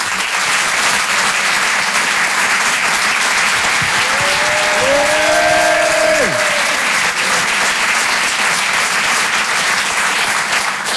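A comedy club audience keeps up long, steady applause, and a single voiced cheer briefly rises above the clapping midway through.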